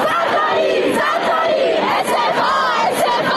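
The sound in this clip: A crowd of students at Kharazmi University, Karaj, protests mass food poisoning from contaminated meals with loud, continuous group chanting. Many voices shout together in a steady, rhythmic roar throughout.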